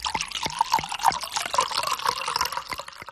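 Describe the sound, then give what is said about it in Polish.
Water runs from an opened kitchen tap in a steady splashing stream, broken by quick drip-like ticks throughout, with no voices. “Najlepiej o tym się przekonać po prostu, jak się odkręci kran i spróbuję tej wody.”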